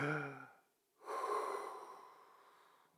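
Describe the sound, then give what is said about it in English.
A big, deep breath taken on cue: after a brief voiced sound, a long airy rush of breath lasts about two seconds and slowly fades out. “Breathe in, breathe out. I think that's what the world needs altogether. Everybody at one time, take a big deep breath.”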